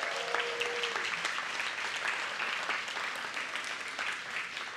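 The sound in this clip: A church audience applauds a newly married couple, wed the day before, with dense, continuous clapping that holds steady for about five seconds.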